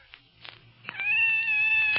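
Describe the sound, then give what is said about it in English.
A frightened cat coming out of a closet gives one long, drawn-out meow, high and steady in pitch and fairly loud. Faint, soft knocks come just before it. “It's a cat. There, kitty. A cat. Oh, nice kitty. It's scared.”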